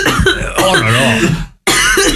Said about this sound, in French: On t'entend tousser à l'antenne, mais foutez-lui une grosse claque dans le dos.